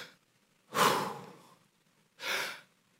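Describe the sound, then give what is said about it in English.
A voice imitates the labored, heavy breathing of a climber near camp four on Everest at high altitude. Two breathy exhalations are separated by a pause: the first is loud and drawn out, and the second is shorter and a little softer. “Allison said that when you're there around camp four, you take one step for every 5 to 10 breaths. She said it looks like this. She takes one step and it's like,”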